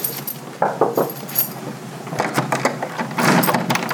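A shop door being opened: keys jangle and metal clinks, with a series of sharp rattles and knocks as the door is unlocked and moved. The sound is loud and fairly continuous, growing busier toward the end.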